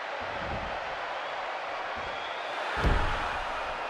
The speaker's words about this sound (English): The fans going absolutely bananas here.